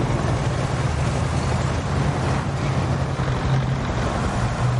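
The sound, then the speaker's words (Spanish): Engine roar from a convoy of military trucks driving along an avenue, a dense, continuous rumble with a low droning hum beneath it, loud and unbroken from start to finish. “Tres helicópteros sobrevuelan la avenida por la que circula un convoy de camiones militares.”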